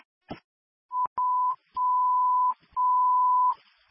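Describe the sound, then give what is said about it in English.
Fire dispatch alarm tone sounding for a fire engine call-out: a steady mid-pitched electronic beep in a few bursts, the last two each holding for most of a second, after a faint click. “Engine 43. Ringing alarm.”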